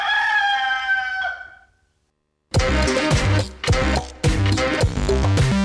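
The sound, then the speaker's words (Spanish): A fighting rooster crows once, a long, loud, harmonic call that trails off, followed after a short silence by loud, rhythmic music. “Se ve que le agarró el frío al gallo de Riña, porque no cantó más ese gallo.”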